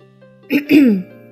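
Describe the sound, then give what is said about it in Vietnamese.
A dry cough from a man, heard as a short throat-clearing burst followed by a longer rasping one, moderately loud and on its own. “Triệu Phổ ho khan một tiếng, cảm thấy hơi lúng túng.”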